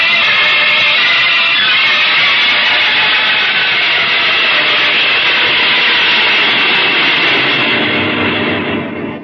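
Roaring spaceship engine as the craft descends to land, a dense, steady, loud rush that holds evenly and tapers off at the very end.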